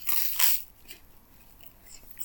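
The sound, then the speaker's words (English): A crisp bite into the crunchy crust of an ordinary slice of toast gives a loud crunch at the start, followed by faint, soft chewing. “I do like the crust. The crust tastes like the top crust tastes alright.”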